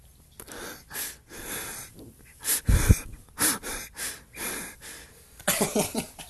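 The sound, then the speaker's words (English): Heavy, wheezy breathing from a person on a call: many rough, gasping breaths come in uneven pulses, a few louder and more strained, with no talk over them. “Turns out he's just breathing”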